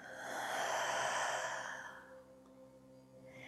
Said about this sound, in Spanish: Toma una inhalación profunda por tu nariz y por tu boca exhala todo el aire.